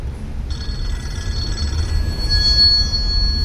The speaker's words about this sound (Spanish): Rings de teléfono.